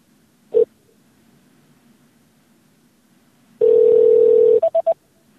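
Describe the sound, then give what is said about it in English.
Touch-tone telephone dialing: one short beep, a quiet pause, then a loud steady tone of about a second followed by three quick beeps, clean and free of voices. “You know, dial it back and see if it does the same thing.”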